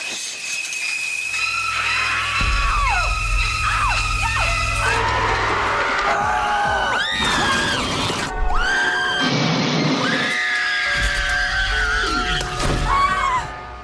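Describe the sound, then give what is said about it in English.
Screams of people dying in major motion pictures, some of them historical, run as a loud montage of varied shrieks and cries with abrupt cuts between scenes and crashing noises mixed in. “So that is the sound of lots of people dying fictionally in some major motion pictures, some historical ones in there as well.”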